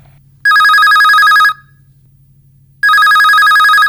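A telephone rings for an incoming call in two loud, bright electronic bursts of about a second each, separated by a pause, over a low steady hum, with no talking.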